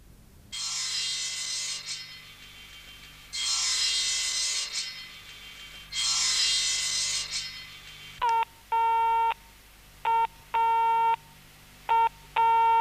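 A telephone line tone sounds after the call has been cut off. Three long bursts of hiss come first, then the tone repeats as three pairs of short and longer steady beeps with silent gaps between them.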